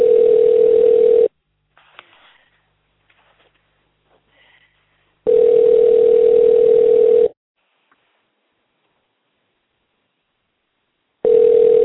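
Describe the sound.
A telephone line tone sounds while a call is being placed, a steady mid-pitched hum in loud bursts of roughly two seconds separated by long silences, with a third burst starting at the end.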